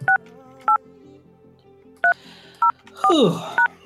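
Telephone keypad tones beep as a number is dialed into a conference call line, several short, clean two-tone presses spaced irregularly, with a brief burst of another sound near the end.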